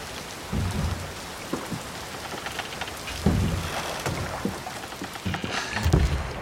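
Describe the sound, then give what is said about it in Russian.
Rhythmic oar splashes as a man rows a boat, with low, thudding strokes recurring roughly every second over a steady rain-like hiss of water. “Мужчина плывет в лодке, спешно развязывает мешочек”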